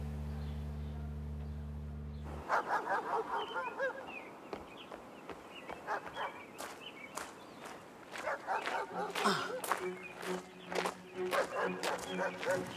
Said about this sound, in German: Na komm schon, du süßer Hund.